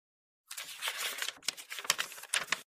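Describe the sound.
Dry paper rustling and crinkling as pages of a Vietnamese National Assembly 70th-anniversary yearbook are turned, in several uneven crackly bursts with no talk.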